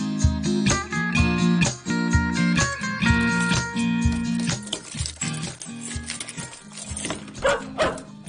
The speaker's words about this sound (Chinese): 点解有只狗喺屋企噶？